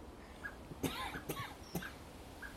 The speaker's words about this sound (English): Excuse me, coughing. But I do have a rickety throat this morning.